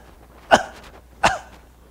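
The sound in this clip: Two short, sharp cough-like bursts from a voice imitating a parrot that mimics a smoker's cough, spaced under a second apart with quiet between them.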